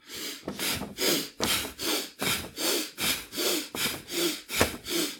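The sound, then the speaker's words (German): Quick, forceful breathing from an exercise, inhaling while raising the arms and exhaling while lowering them, repeats many times in a steady, even rhythm. Each breath is a loud, airy rush with no talk. “Also Arme hochnehmen, einatmen, Arme runternehmen, ausatmen.”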